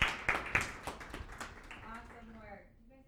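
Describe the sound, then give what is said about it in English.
Scattered clapping from a small audience after a talk: a few sharp, distinct claps at the start that thin out and fade within a couple of seconds, with a voice heard near the end. “So let's give Chris a round of applause.”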